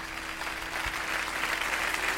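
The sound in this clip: Concert audience applause forms an even, continuous wash of many hands clapping at a fairly faint level, with a low steady hum beneath it.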